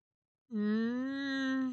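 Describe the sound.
A girl crying: a single sustained wailing moan that starts abruptly after a short silence and holds a steady pitch, fairly loud, with no talk.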